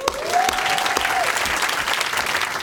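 Loud, sustained applause from a festival audience after a stand-up comedy set, dense clapping throughout with a single whistle piercing through near the start.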